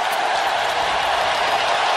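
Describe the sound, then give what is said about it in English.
A stadium crowd at a Georgia college football championship game gives a standing ovation as the quarterback leaves the field, a dense, steady roar of cheering and clapping that holds without a break. “Stetson Bennett gets a standing ovation as he goes out of the game after playing quarterback, winning his second championship. They call timeout, and they let him come out of the game so people have a moment to, like, cheer for him.”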